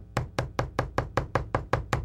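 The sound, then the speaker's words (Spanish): Knocking on a door: ten quick, evenly spaced raps in a steady rhythm, sharp and fairly loud, with no voices. “Vamos a tocar la puerta.”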